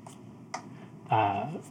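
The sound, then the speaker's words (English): A box is cracked open and clicks back shut, giving a few faint, sharp clicks separated by quiet gaps. “takes a second, like, gets it cracked. You can hear it click back shut again. And then she flips it open completely.”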